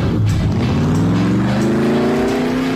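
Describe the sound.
A car engine sound effect, loud and alone: the engine revs up steadily, its growl rising in pitch throughout.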